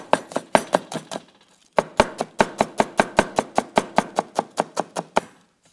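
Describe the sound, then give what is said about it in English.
A knife chops onions, ready for a beef stir-fry in a wok. Crisp, sharp knocks land in a short run, pause briefly, then resume as a long, even, brisk series of many chops, with no talk. “And before you put in the beef, cut some onions first.”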